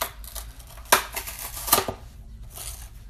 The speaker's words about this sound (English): it looks like we're opening this the hard way. With a knife.